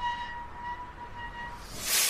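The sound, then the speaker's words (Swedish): A train arrives at Stockholm's central railway station: a faint, steady whine over a low rumble, with a surge of hiss near the end. “En man i ljusbrun bläser kliver av ett tåg på Stockholms centralstation.”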